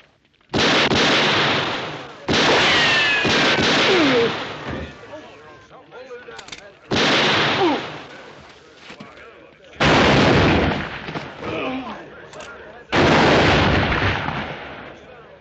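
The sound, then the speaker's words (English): Gunfire in a western shootout comes in a few loud, sustained bursts of shots, each cracking and echoing before a short pause and the next volley. “That's enough shooting.”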